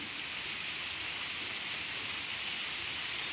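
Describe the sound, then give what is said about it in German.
Steady rain falling just as a shower begins, a dense even hiss of drops spread across a broad range and heavy in the upper register, constant in level throughout with no voices. “so wie der Regen anfängt sich einzuregnen, werde ich noch mal kurz die wohltuenden Tropfen”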